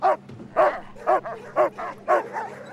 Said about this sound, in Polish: Tak brzmi sfora psów, które szukają zawierających tytoń przesyłek wysłanych pocztą do Wielkiej Brytanii bez opłaconego cła.